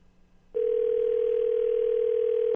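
A ringback tone on an outgoing telephone call sounds as one steady, low-pitched electronic burst lasting about two seconds, then cuts off.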